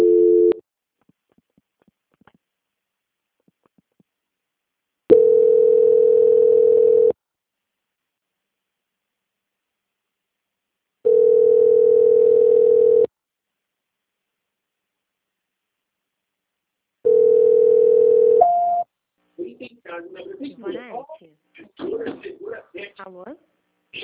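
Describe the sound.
An unanswered telephone call rings out: a clipped ring, then three full steady ringing tones spaced by long silences, after which a person begins talking.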